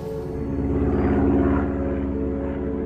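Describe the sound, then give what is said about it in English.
Steady propeller-engine drone of a small plane landing at a small provincial airport outside Amiens in northern France. A loud, continuous low hum with even tonal bands holds throughout, with no voices. “The plane touches down smoothly.”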